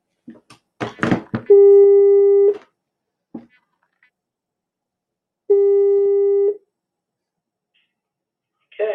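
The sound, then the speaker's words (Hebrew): Outgoing telephone call tones: a few quick clicks, then two long, steady ringback tones separated by a few seconds of silence. “יפה, אנחנו יוצאים לשידור, אני מתקשר כרגע לכבוד הרב אלון”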